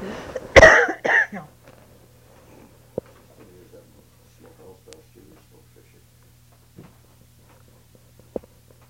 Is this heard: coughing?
yes